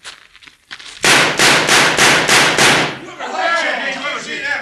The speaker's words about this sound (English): Look like there's only one new bullet hole in this target. All the other shots are from Kip Redden's gun.